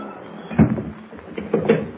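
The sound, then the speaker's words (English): A door is closed and bolted: a single clunk, then about a second later two quick knocking clicks, moderately loud over a quiet background. “Close the door and slip the bolt, eh?”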